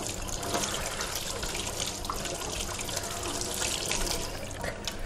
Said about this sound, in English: Wash my hands before we go any further.